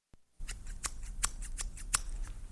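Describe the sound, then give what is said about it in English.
A knife sawing through a net to free a trapped eagle in a fable: a series of crisp, rasping snips and slices, each a short bright transient, spaced at fairly regular intervals over a low background rumble. “The farmer tries his best. He cuts the net with his knife. I'm almost done.”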